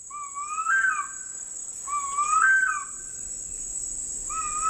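Harpy eagle calls: two drawn-out, rising whistled wails and the start of a third, each with a quavering upper tone, over a steady high insect drone.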